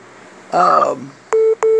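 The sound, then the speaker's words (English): Two short, steady call-waiting beeps sound on a telephone line, clear and identical in pitch with a brief gap between them. A short burst of voice comes just before them. “somebody's beeping in”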